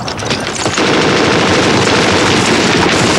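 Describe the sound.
Sustained machine-gun fire in a battle among rubble: a loud, dense, unbroken rattle of rapid shots that fills the whole stretch and grows heavier after the opening moment.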